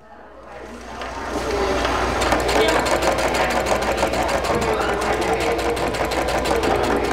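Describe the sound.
A sewing machine runs at a ribbon skirt sewing workshop in a recreation center, starting after about two seconds and then holding a steady, rapid mechanical whir until the end.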